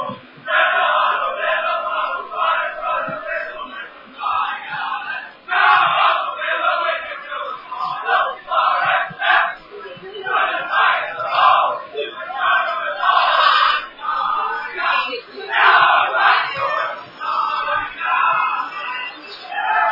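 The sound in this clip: Football crowd singing the club song at a North East Australian Football League match in the fourth quarter at Dairy Farmers Park, the Tigers winning big; many voices chant together in loud, surging phrases that swell and dip steadily throughout.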